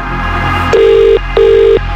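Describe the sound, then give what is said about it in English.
A telephone rings on an outgoing call to a contest winner who must answer within five rings. Two steady, buzzing ring tones at the same pitch are separated by a short gap over a faint background hum, with no talking. “One ring. Two rings. Three rings.”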